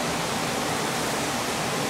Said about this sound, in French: Là, c'est notre point de prélèvement. Je sors un peu d'eau pour qu'on puisse voir de quoi elle a l'air.